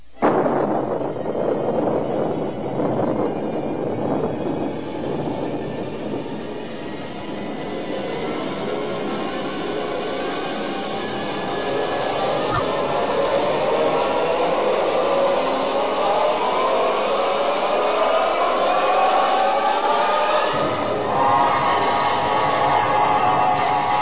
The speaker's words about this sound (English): countdown for blastoff. X-minus 5, 4, 3, 2, X-minus 1, fire.